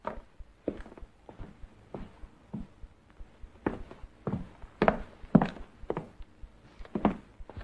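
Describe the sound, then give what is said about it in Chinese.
Chiang Kai-shek's heavy riding-boot footsteps sound on the floor upstairs, a steady run of dull thuds about every half second, louder and firmer in the second half. “楼上传来蒋介石沉重的马靴声。”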